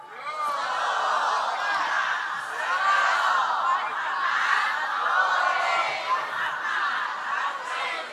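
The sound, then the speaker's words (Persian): Massed voices of a crowd chant salawat, blessings on the Prophet, forming a continuous dense roar that stays at a steady level throughout. “و این صلوات شما حکایت عظیم معنا می کنند”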